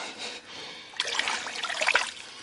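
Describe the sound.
Steaming hot water runs from a faulty tap as a soft, hissing trickle that grows rougher and louder after about a second, staying fairly faint overall.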